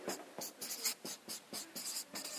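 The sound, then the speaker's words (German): A word is written by hand in a rapid series of short, scratchy strokes, each a crisp burst with brief gaps between them, quiet and without talk. “Fürbitte, ich schreibe ihn mal hin, Fürbitte.”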